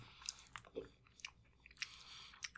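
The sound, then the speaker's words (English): Chewing on a chocolate nougat candy bar: a few soft, crunchy bites and mouth sounds come in short, irregular bursts, quiet and alone with no talk. “I can taste it. The nougat makes it taste like a Milky Way in a way I don't like.”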